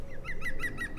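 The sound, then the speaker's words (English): A green woodpecker calls by a park pond: a run of short, bright notes repeating at an even pace, fairly faint above a low, steady background rumble. “That's a green woodpecker calling in the back.”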